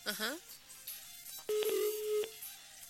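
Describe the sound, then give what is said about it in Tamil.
A phone call cuts off: clicks and a single short, steady mid-pitched tone follow a brief fragment of voice. “அவருடைய அழைப்பு துடிக்கப்பட்டுள்ளது.”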